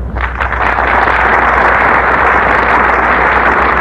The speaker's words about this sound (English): And our studio audience is giving them a big hand, for there's no more popular star in all of Hollywood than Gene Hersholt.